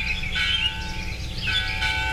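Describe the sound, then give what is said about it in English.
A church bell ringing at a brick church, sustained metallic tones with layered ringing overtones humming steadily, with a few brighter swells rising over the hum. “The clangor of the bell sounded, and soon all were seated.”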